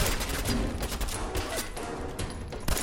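Video game gunfire cracks out in a rapid, dense volley, with many sharp shots fired in quick succession during a firefight. The shots stay loud and continuous across the whole stretch, with no voices.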